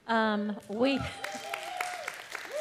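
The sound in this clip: Students cheering and clapping at a Bible college, scattered claps and cheers rising after a voice and continuing under ongoing talk.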